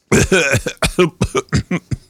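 A fit of loud coughing and throat clearing, as if something caught in the throat: a rapid string of many harsh, choppy bursts with short gaps between them, heard alone without talk.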